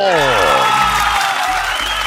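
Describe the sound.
Applause on a sports talk show after news that Mexico has clinched first place in Group A: a steady wash of clapping follows a voice at the start.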